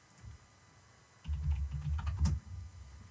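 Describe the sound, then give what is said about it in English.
Someone types on a computer keyboard. After about a second of near-quiet, a quick run of many soft key clicks keeps going to the end, fairly faint and steady. “Type in Justin.”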